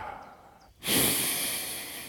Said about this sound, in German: atmet tief ein und mit einem vierfachen H atmet ihr aus und dabei senkt ihr die Arme